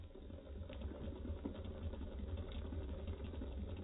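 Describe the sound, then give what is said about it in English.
A steady electric pump motor running as a radio drama sound effect, giving a continuous low, even hum that holds throughout with slight rough texture and no clear change in pitch. “I built this pump especially for it. There's the pump switch, Ed. Here? Yeah. Turn it on and watch the ammeter.”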